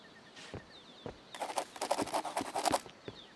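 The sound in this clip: A pen scribbling down notes, a faint flurry of quick scratchy strokes packed into roughly a second and a half, preceded by a few isolated soft ticks.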